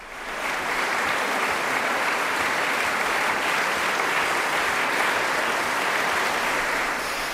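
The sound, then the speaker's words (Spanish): Audience ovation after a Schubert ballad concert by a young duo in the Angelica Kauffmann hall: sustained, dense clapping that swells in quickly, then continues evenly for several seconds. “Estamos escuchando las ovaciones del público a este dúo que, pese a su juventud, es uno de los más aclamados del momento, especialmente en el repertorio de Schubert.”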